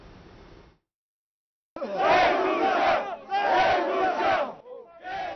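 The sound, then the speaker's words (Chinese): Protesters in La Paz, Bolivia, among them union members, farmers and indigenous groups, chant slogans demanding that President Paz resign. Loud, rhythmic crowd shouting comes in strong surges after a short quiet stretch. “你听到这些抗议者们不断高喊口号，要求总统帕斯要下台。”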